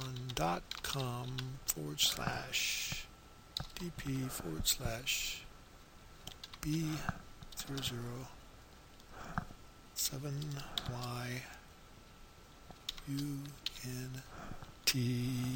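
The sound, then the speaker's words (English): Clicking keystrokes on a computer keyboard come in short bursts between stretches of a person talking, with the clicks faint under the voice. “Let me see if I can type it in here.”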